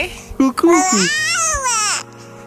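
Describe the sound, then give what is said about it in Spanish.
A baby babbles with a few short cooing syllables, then lets out a long, loud, high squeal whose pitch rises and falls before stopping abruptly. “que escuchar el balbuceo de un bebé te relaja, sobre todo si es de otro el bebé.”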